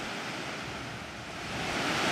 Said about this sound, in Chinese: 顺流而上，我们在3.0瀑布的上游看到了一个地下洞穴。